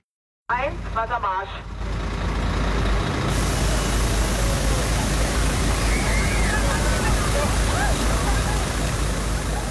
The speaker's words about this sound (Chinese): 在德国柏林，警方出动高压水炮向聚集人群喷水，帮助民众缓解酷暑带来的高温。